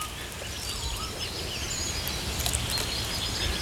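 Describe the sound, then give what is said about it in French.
Birds sing in an old forest of aged trees with peeling bark. Faint high chirps and trills overlap continuously above a steady background hiss, with no voices. “Ça chante. Hein. C'est vraiment une forêt qui chante.”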